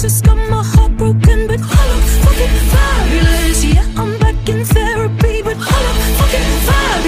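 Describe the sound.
A pop song plays alone at full volume, driven by a steady thumping kick-drum beat under a bright, wavering lead melody and dense layered backing.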